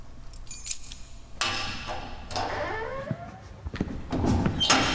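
Keys jangle and a door is locked to shut someone in, with many metallic clinks and rattles, a sliding clank of the door and scattered clicks, moderately loud and with no voices.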